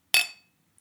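Glasses clink together once in a toast, a sharp, bright, high ring that fades away within a fraction of a second. No one speaks.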